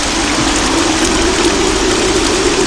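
Rain in a scene from an Indian film: a loud, steady hiss that stays constant throughout, with a low, even hum beneath it and no voices.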